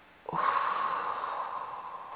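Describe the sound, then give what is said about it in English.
Breathing in and exhaling: an airy, breathy rush that starts abruptly and then carries on steadily at moderate loudness until the end, with no voices. “One more time. Inhale. Now exhale.”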